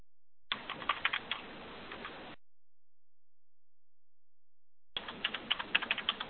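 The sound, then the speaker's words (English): Typing on a computer keyboard while filling a consumer ID and date of birth into required search fields: two bursts of many quick, uneven key clicks, separated by a few seconds of silence. “We'll enter the consumer ID and the date of birth as they are required fields and click Search.”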